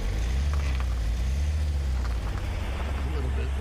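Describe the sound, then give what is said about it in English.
Low, steady engine rumble of a car reversing while parallel parking up to the curb, with faint voices over it. “Back the car up until that bumper is in line with your side view mirror. Now straighten out, sir. Back up all the way to the curb.”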